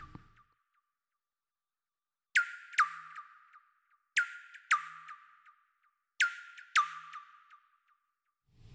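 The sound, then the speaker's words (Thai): Baby birds chirp on a fine, clear day: sharp, high-pitched chirps come in three pairs with quiet gaps between them, each chirp trailing off quickly. “เป็นเสียงของลูกนกนะจ้าเจ้านกติดตีคงจะดีใจที่อากาศแจ่มใสก็เลยร้องเพลงออกมา”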